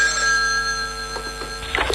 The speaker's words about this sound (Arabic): ما حب رد على التليفون، ما بحب يا اختي. يا الله رد لبين ما غسل ايدي.